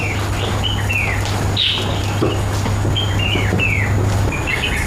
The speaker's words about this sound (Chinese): 你看，我们来到这里，这个鸟就一直不停地叫。好，我们静下来听一听。